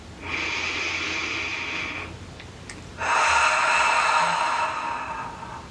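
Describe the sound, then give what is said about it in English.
A deep breath during a healing meditation, drawn in through the nose for about two seconds as a soft, airy hiss. After a short pause comes a louder, longer breath out through the mouth that fades at the end. “So go ahead and take a nice deep breath in through your nose and out through your mouth.”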